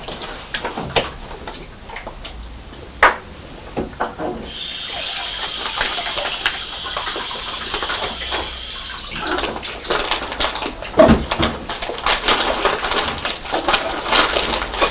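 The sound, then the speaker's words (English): Water rinsing out a jar after a spill at home: a steady hiss of running water mixed with a few sharp knocks and clinks of the jar, with no talking. “I made a mess. Yeah. Silly Mummy. Have to rinse the jar now.”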